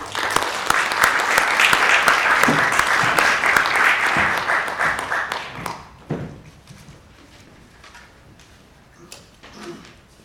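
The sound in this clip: An audience at a Party for Socialism and Liberation meeting claps to welcome a speaker: dense, loud applause for about five seconds, then tapering off into a few scattered claps.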